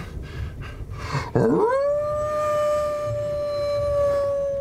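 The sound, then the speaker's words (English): Piercing, resonant howl in a tabletop role-playing game: after brief low noises, one loud cry sweeps quickly into a long, steady, sustained tone that holds for several seconds, alone. “The howl is piercing, and at the same time resonant.”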